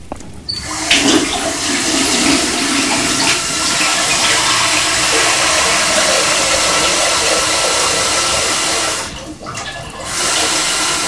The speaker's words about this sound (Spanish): La señora Carmen llena una palangana con agua caliente